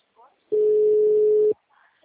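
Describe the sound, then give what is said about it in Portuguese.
Telephone ringing tone while placing a call, a single steady, low, pure tone lasting about a second, with faint brief sounds just before and after it. “Tô ligando, peraí.”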